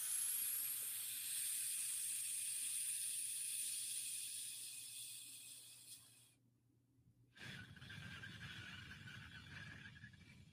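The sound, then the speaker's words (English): Pursed-lip breathing, air pushed out through tightly restricted lips: one long, steady, airy hiss lasting several seconds, then a short silence before another breath begins. “breathe in through your mouth and out through the mouth normal, but restrict your lips. So it's like you're sucking on a straw, you're blowing a kiss, or you're whistling. So like this.”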